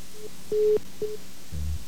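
Telephone line tones after a dropped call: a few steady electronic beeps at one pitch, one held longer than the rest, then a lower, buzzier tone.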